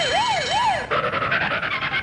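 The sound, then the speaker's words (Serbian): A police car siren, loud and alone: it wails up and down through two slow cycles, then switches to a rapid pulsing warble. “kada mu je put prepriječilo policijsko auto sa upaljenim rotacionim svjetlima.”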